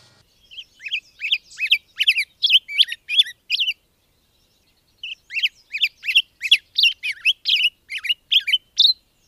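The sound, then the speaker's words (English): Black-headed grosbeak song: two runs of rapid, high, sweet warbled chirps separated by a short pause, the notes clear against a quiet background. “It's a black-headed grosbeak”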